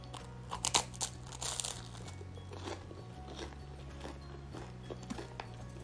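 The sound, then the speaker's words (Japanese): Crisp crunching bites into burnt toast, a few loud crackly bites early on, then softer chewing and crinkling, all faint over a low steady hum. “あらちょっとトースト焦がしちゃったわまあいいわ気にしない気にしないいただきます”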